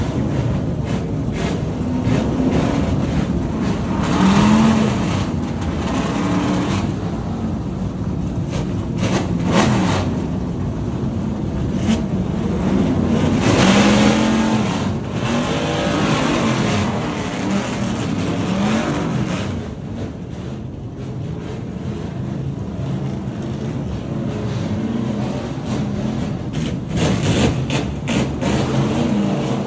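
Race car engines fire up as an entire field starts at once in the pit lane on a wet track. Dense, steady engine roar runs throughout at high loudness, with overlapping revs and no clear breaks.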